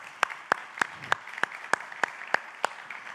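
A church audience welcomes guests with nine evenly spaced claps in a steady beat, faint and alone with no talk over them.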